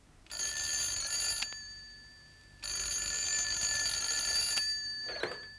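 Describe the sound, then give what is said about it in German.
A telephone rings in an office with two long, steady, bright electronic ringing bursts separated by a short pause. A brief clatter follows the second ring. “Da klingelte das Telefon.”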